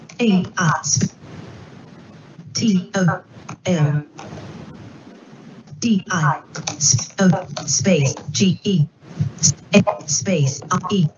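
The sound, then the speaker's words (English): Someone types a message on a computer keyboard, producing a quick run of light key clicks in a quieter gap between longer stretches of a man's speech. “And I tab to message edit mode. I'm going to type in just a message.”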